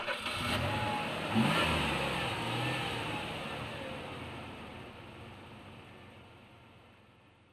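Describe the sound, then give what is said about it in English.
A car drives off, its mid-pitched engine revving briefly at the start and then holding a steady hum that gradually fades away. “He's driving.”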